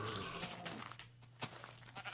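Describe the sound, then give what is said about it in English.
Goat bleats from a video-game mountain goat clinging to sheer rocky edges: a few short, nasal cries rising over a low steady hum, with brief scrapes between them. “You're no bovine. You're a mountain goat.”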